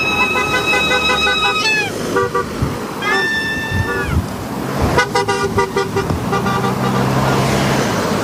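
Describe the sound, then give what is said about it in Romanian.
Dozens of drivers honk car horns to celebrate the opening of a new motorway section: many loud, sustained and overlapping horn blasts of varied pitch over traffic noise. “Zeci de șoferi au marcat momentul deschiderii noului tronson de autostradă cu claxoane, vuvuzele și urale.”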